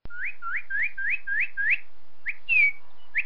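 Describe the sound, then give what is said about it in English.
A northern cardinal, Kentucky's state bird, calls in a clear series of loud whistled notes. Six quick upslurred whistles run in a steady rhythm, followed by a few more separated notes, one of them slurring downward. “That's the call of Kentucky State bird, the cardinal.”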